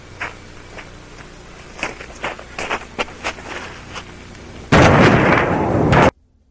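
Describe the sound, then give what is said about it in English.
Explosion blast at a fire scene, played back from a video: a few sharp pops, then a loud, sustained roaring burst that cuts off abruptly. “Because this blast here, wait for it.”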